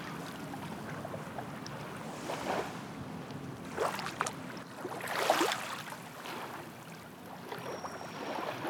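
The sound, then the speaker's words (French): Small waves lap on a gravel shore in a steady, soft, hissing wash, with a few gentle surges as individual waves break and draw back, and no voices. “Ce que j'aime, c'est le bruit des petites vagues.”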